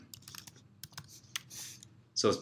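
Typing on a computer keyboard while entering a search query: quiet, irregular key clicks in small clusters, ending in a louder clack.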